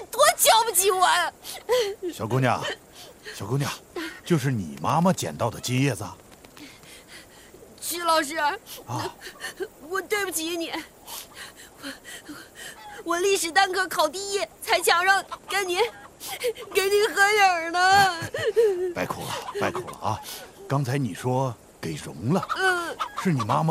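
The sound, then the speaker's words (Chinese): A girl cries in a dramatic scene, her sobbing voice rising and falling in wavering, high wails. Other people's talk runs in and out between the sobs. “别哭了，别哭了啊！”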